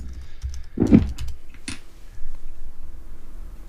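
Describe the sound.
Keystrokes on a computer keyboard while typing a chat message: a few soft, scattered clicks over a quiet background, with no talking.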